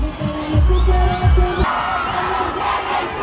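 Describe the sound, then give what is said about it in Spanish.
A crowd celebrates in the streets of Madrid, a loud, continuous roar of cheering voices. Deep, booming thumps sound in the first moments. “el ambiente de la celebración. Ahí está el sonido de las calles de Madrid.”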